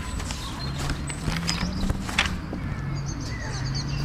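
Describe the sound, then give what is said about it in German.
Staged running footsteps: a person dashes along in quick, steady footfalls. The light, even thuds repeat over a low hum for the whole stretch. “Schnell schlüpfte Claire in ihre Schuhe und rennt so schnell sie kann zu Emmas Haus.”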